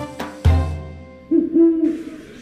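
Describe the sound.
An owl hooting, in an owl café in Tokyo: a few loud, clear, tonal calls, with short sharp hoots at the start and then a longer, sustained, slightly wavering hoot.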